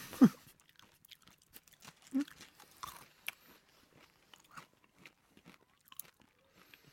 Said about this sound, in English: Sorry that we're eating food.